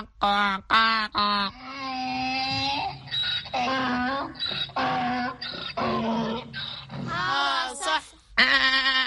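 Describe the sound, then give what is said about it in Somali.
Voices imitating a donkey's bray in a children's sound game, a loud run of strained, harmonic hee-haw calls that rise and break, repeated many times. “waxaad ii sheegtaan dhawaqaan dameerku wuxuu u ciyaa”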